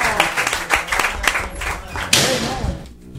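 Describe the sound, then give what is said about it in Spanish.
Applause for a departing guest, a burst of brisk, irregular hand clapping that swells and then thins out, with voices speaking over it. “Venga, un aplauso para Carlos.”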